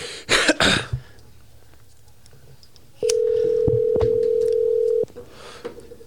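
The ringback tone of an outgoing phone call to someone who may not answer: one steady, loud, mid-pitched tone lasts about two seconds, after a brief cough and some rustling at the start.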